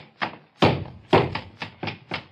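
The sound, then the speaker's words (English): Dull heavy thuds of a shotgun being pounded and hammered on a floor: several separate knocks at irregular intervals, fairly loud, with no talk. “I'm going to take the same gun and pound it on the floor. And now I'm going to hammer it and knock it.”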